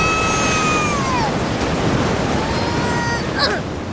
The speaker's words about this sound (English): That wave completely destroyed your sandcastle.